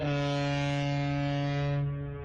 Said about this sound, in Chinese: 一艘艘满载新麦的货轮鸣笛起航